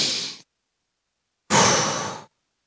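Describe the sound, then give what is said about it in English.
A deep breath is drawn slowly and heard alone, a long breathy rush lasting under a second, after a short breath sound trailing off at the very start and a pause of silence. “okay, God, I'm going to take a deep breath.”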